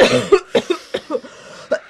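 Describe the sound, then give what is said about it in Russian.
A man coughs from the smoke of Belomorkanal papirosa cigarettes in a rapid fit of many short, harsh coughs, loud and uneven in spacing. “Я прошу прощения. Мы сидим тут в беломорном дыму. Несколько мои слабые легкие не выдерживают дыма. Сигарет, вернее, это папиросы даже.”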